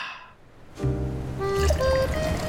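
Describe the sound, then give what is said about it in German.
Sparkling wine pours into a glass in a hotel suite, a fizzing splash that starts abruptly after a short hush and runs steadily, with thin ringing tones climbing as the glass fills. “Carmen schenkt Robert nochmal einen Schluck Sekt nach. Oder wahrscheinlich trinken sie Champagner, ne?”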